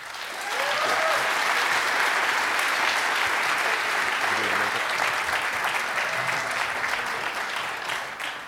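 Audience applause welcomes musicians back on stage: a dense, steady clapping that swells in within the first second and holds loud and even for several seconds without voices.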